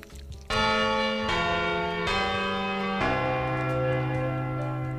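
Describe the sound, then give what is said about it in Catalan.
A church bell strikes four times at a slow, even pace. Each deep, rich toll rings on and overlaps the next, with no talk. “La següent campanada m'agradaria dedicar-li al Levi”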